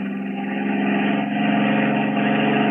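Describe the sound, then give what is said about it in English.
Steady engine hum of a car driving downhill, a continuous mid-pitched drone that swells slightly louder in its second half. “So you're getting to be a pretty good driver, huh? Sure is a lovely view from up top here. Now take it easy going down. Crossroad ahead.”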